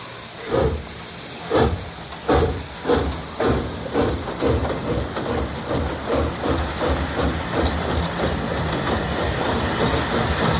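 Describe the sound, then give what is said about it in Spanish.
A train pulls away, its wheels clattering in spaced, heavy bursts that quicken into a dense, steady clickety-clack, with a constant hiss running underneath. “Se miran mientras el tren se aleja.”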